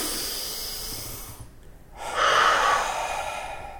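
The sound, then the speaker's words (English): A deep breath taken during a tapping relaxation exercise: two breathy phases separated by a short pause, the second louder and longer, with no talk. “Okay, now take a nice breath.”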